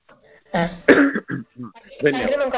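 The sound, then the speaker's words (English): A coughing fit of several harsh, voiced coughs in quick uneven bursts gives way to a more continuous vocal sound at the end. “Oh, excuse me, I had a coughing fit.”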